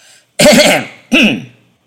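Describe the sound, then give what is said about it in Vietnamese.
A dry throat clearing comes in two rough, raspy bursts, the first longer and the second shorter, heard alone with silence around them. “Phong Trần Tứ Khách cố tạo ra vẻ trịnh trọng, chậm rãi ho khan lên một tiếng rồi mới cất lời.”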